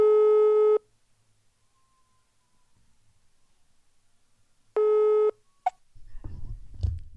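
Telephone ringback tone while placing a call: two steady, loud, even beeps separated by a long silent gap, followed by a click and rising rustling noise at the end.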